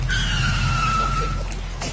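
Car tires screech as the vehicle brakes hard and skids on a self-drive road trip, a loud, steady high squeal held for over a second before fading, over a low rumble.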